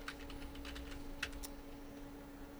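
Quiet typing on a computer keyboard, a few scattered light key clicks mostly early on over a steady low hum, with no voices.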